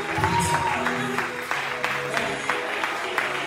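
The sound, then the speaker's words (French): An audience at Christian worship claps to acclaim the Lord, with steady rhythmic handclaps about twice a second over a sustained tonal background. “Est-ce qu'on peut acclamer le Seigneur Acclamez-moi le Seigneur.”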